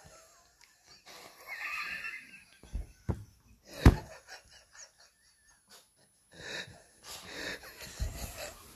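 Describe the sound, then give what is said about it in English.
Flatulence from a man: a short, loud, rasping burst stands out midway among quieter breathy, wheezing noises. “Excuse me, I'm so sorry. I just passed a little gas on my podcast.”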